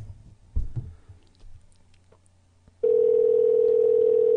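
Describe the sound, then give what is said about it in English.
Telephone dial tone while redialing after the line hung up: a few faint clicks and knocks of handling, then an abrupt, loud, steady dial tone that holds unchanged to the end. “Oh, it hung up. Let me try again. The touch tones should wake them up.”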